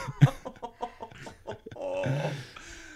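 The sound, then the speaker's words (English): A man retches and vomits after drinking Twisted Tea. A sharp heave comes near the start, then a run of short throaty gags and a longer strained, gurgling retch toward the end. “The only thing decent we're doing right now is not filming him vomit. Not yet. Ladies and gentlemen, if you... That's at least 3 gallons so far.”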